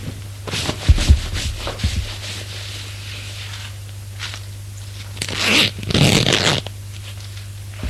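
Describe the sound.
A person getting dressed: soft clothing rustles come first, then a longer burst of rasping zipper pulls in the later part, with quiet in between.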